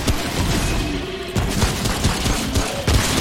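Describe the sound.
Gunfire in a video game: a fast string of loud, sharp shots in dense bursts over a steady roar of battle noise, with no voices.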